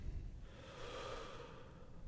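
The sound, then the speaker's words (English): A person takes a long, deep breath during a relaxation exercise. The airy breathing noise is steady and fairly soft, running unbroken for about two seconds with no talking. “So go ahead and just take a deep breath and double your relaxation”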